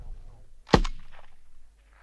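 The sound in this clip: A single gunshot fired with live ammunition at a firing range: one sharp, loud crack followed by a short, decaying rumble, with quiet background before it.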